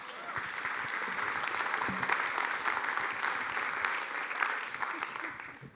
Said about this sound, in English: So let's put our hands together and welcome Jill Weber.